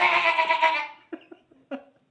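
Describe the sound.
A goat bleating sound effect: one long, loud, wavering bleat, then a few short, fainter bleats with small gaps between them.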